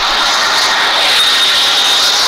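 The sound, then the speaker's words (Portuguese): Loud, steady roar of an airplane landing beside an airport: a continuous broad rushing rumble with a faint high whine on top, heard alone without talk. “Estou bem aqui do lado do aeroporto. Uh, inclusive, tá pousando um aqui, ó.”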